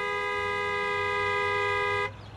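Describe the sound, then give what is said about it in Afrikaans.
A car horn honks at a petrol station in one loud, steady blast about two seconds long that then cuts off abruptly. “Ek haat dit mos as mense vir my toeter.”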